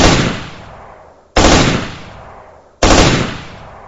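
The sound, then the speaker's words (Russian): Three short bursts of automatic rifle fire, each a loud sharp crack of rapid shots that fades away before the next burst, evenly spaced with no voices. “Я присел на одно колено и увидел троих бандитов, огибающих строительный вагончик. Драпать в сторону лаборатории было поздно, поэтому я скинул автомат и встретил их тремя короткими очередями.”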